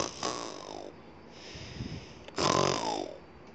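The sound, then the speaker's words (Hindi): A voice imitates a lion snoring loudly in deep sleep, producing two long, rasping snores separated by a quieter breath. “शेर पसर के सो गया और थोड़ी देर के अंदर ही उसको गहरी नींद आ गई और वो ज़ोर ज़ोर से क्या कर रहा था खर्राटिल रहा था”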